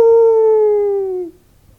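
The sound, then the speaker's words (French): A dog howls in one sustained, steady tone that sinks slightly in pitch over about a second before cutting off, heard alone with no voices. “Dieu merci, je reconnais son aboiement. C'est le chien des Harbison.”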